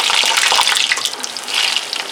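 Moist plantains for tostones go into hot, previously used oil and fry with a loud, bright, continuous hiss and crackle that surges and eases slightly over a couple of seconds.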